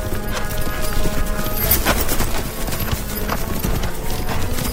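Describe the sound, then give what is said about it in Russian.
Horses galloping through a copse of dried-out trees, a dense, continuous drumming of hoofbeats that stays loud and steady throughout. “Взяв поводья двумя руками, Казанзаки скачет быстрее.”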